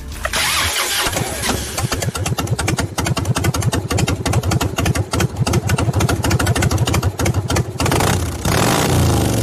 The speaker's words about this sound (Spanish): Un harlista muy cercano nos decía alguna vez que este sonido es mágico, terapéutico, y que cuando brota de un motor propio, equivale, bueno, a los latidos del corazón de un hijo.